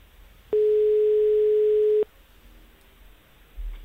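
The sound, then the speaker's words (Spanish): A single steady, mid-pitched telephone tone, heard while placing a call during a live radio show. It lasts about a second and a half, starting and stopping abruptly over a low background hiss. “Vamos a ver si da tono.”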